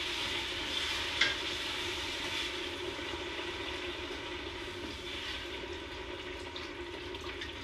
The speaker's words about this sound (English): So we're just gonna slowly add this as we mix in our onion. Mix our onions some more.